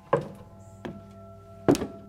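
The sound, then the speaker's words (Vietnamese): Heavy footsteps thump on a wooden floor in a large old villa. There are three dull, irregularly spaced thuds, the last one the loudest, over a faint low steady hum. “Tiếng chân của bà ấy cứ dẫm thình thịch vang khắp cả căn biệt thự rộng mênh mang.”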